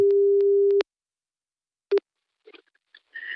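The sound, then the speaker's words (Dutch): A telephone call tone: one steady low beep lasting nearly a second, then a single much shorter beep, followed by a few faint clicks and a soft hiss. “Even bellen.”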